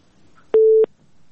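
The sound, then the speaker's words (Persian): Telephone busy tone heard on a phone-in line after a caller's call dropped: a single steady, fairly loud mid-pitched beep lasting about a third of a second, with a quiet background before and after. “بله بله، تماس شنونده ما قطع شد، تماس دیگه میگیریم.”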